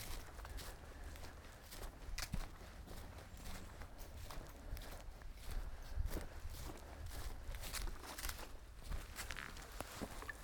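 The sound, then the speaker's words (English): Soft, faint footsteps crunch and rustle over thick pine needles on a forest walk in a pine forest near Leatherwood Creek, Toccoa, Georgia. Many uneven steps follow one another in a loose, irregular rhythm. “No waterfalls, just a walk in the woods in a pine forest. The pine needles are thick.”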